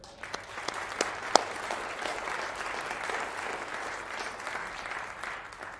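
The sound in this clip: An audience at a church gathering applauds to welcome a speaker with a steady wash of clapping. A few sharp, distinct claps stand out near the start, and the applause holds an even level to the end.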